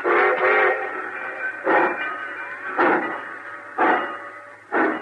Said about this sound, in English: Cussing train pulling out right on time for once.